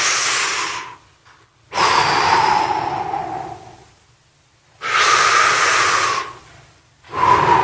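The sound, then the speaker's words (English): Deep belly breathing, loud airy inhales and exhales in several long, slow breaths separated by short quiet pauses, with the final breath cut off and no talking. “Now, as you breathe, I want you to push your hand out.”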